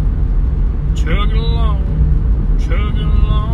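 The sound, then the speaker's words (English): A yellow dump truck chugs past with a steady low engine rumble that continues through the whole stretch while people talk over it. “That was a nice yellow dump truck.”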